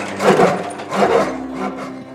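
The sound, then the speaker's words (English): A truck's engine hood is opened during a safety inspection, producing two creaking, scraping strokes of rough rubbing sound, the second slightly longer than the first. “Let's open the hood and check the oil level. I'm opening the hood of the engine now.”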